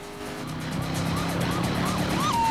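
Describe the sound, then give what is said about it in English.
A police car siren wails during a chase, its rising and falling tone sweeping repeatedly over a steady engine roar that gradually grows louder. “They can't shake off the vehicle that's chasing them. Then another police car appears in front of them.”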